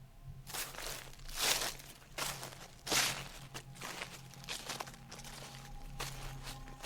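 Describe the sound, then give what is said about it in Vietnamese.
Shoes walk through rustling grass in a dark forest, producing a steady series of crunchy, crinkling footfalls that swell and fade one after another over a faint low drone. “Chỉ nghe tiếng giày đi trên cỏ loạt xà loạt xoạt.”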